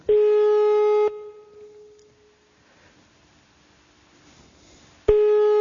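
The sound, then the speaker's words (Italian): Telephone ringback tone heard while waiting for someone to answer a call: a loud, steady electronic tone lasting about a second, then roughly four seconds of faint hiss, then the tone starting again. “Adesso aspettiamo che risponda qualcuno.”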